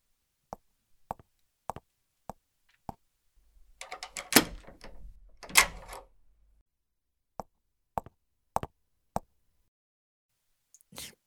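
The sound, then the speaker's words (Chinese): A door being locked in an office: a run of sharp, evenly spaced clicks, then a longer rattling, scraping burst, followed by more regular clicks and a last faint knock. “那我先去把门锁好。”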